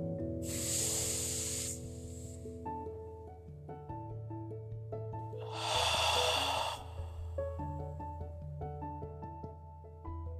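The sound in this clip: Slow deep exhales during a guided breathing exercise: two long breathy whooshes over soft, steady background music, each rising and fading over a second or two.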